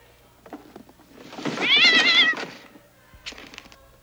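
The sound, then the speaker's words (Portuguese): A cat shut inside a box lets out one long, wavering meow, loud and drawn out, then a brief fainter sound near the end; no one speaks. “Essa caixa aqui tá miando.”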